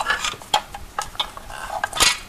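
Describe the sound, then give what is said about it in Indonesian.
Utensils clink and scrape against a pan while eggs are being cooked: several light, bright metallic taps in an uneven rhythm, alone with no talk. “Aku mau masak telur aja mendingan.”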